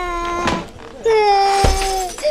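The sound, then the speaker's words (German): Something breaks into shards with a sharp crash, a bright broken burst rising over a sustained wailing, whimpering voice. “Lassen Sie nur, Mrs. Green. Ich sammle die Scherben schon ein. Ist ja nichts weiter passiert.”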